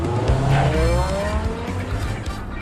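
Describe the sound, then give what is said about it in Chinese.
A car accelerates hard and speeds off, its loud, continuous engine roar climbing steadily in pitch with a hint of tire squeal. “他加足了马力，开得飞快。”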